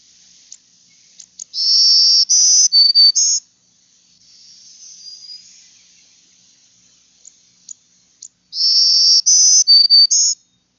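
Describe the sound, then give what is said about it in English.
Black-throated green warbler song: two loud bursts of high, buzzy, wheezy notes in a quick series, separated by a quiet gap that holds a fainter, drawn-out buzz. “Black-throated green warbler.”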